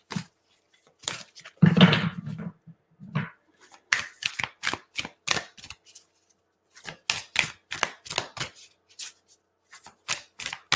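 Shuffling of a deck of cards during a card reading: many quick papery snaps and riffles in uneven clusters, separated by short pauses, with no talk.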